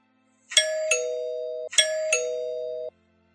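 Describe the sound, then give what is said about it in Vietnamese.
A gate bell rings in two ding-dong chimes, each a bright high strike falling to a lower, sustained clear tone, alone against silence. “Có tiếng chuông cổng vang lên, bà Giang gọi bác An.”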